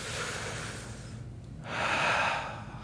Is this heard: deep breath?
yes